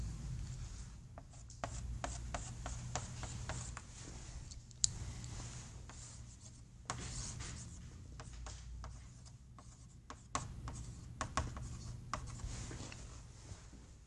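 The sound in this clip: A frequency response graph being drawn on a board: many scratchy strokes and light taps come in irregular bursts, fairly faint, with no talking.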